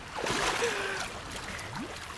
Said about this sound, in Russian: Ольга падает с плота в воду. Выныривает.